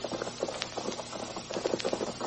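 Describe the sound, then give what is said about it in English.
Hooves of wild horses in a valley clip-clop in a steady, muffled patter over a dense, noisy background. “Them's the horses.”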